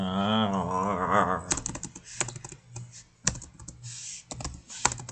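Typing on a computer keyboard in capital letters with caps lock on: a few irregular bursts of sharp keystroke clicks, some dense and some sparse, with short pauses between them.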